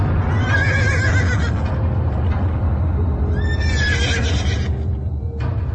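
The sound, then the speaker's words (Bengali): Horses neighing in fear, with shrill, wavering whinnies rising and falling over a loud, dense, constant background noise. “দু একটা ঘোড়া চিহি চিহি শব্দে বিকট চিৎকার আরম্ভ করল।”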